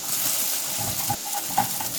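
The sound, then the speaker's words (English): Frozen vegetables being stir-fried and stirred in a honey stir-fry sauce, giving a soft, steady sizzle with a few light scrapes, faint throughout. “And that's going to help to heat up those frozen vegetables you just threw in there. Because of the honey in the stir fry sauce, it's going to caramelize a little bit. So keep stirring.”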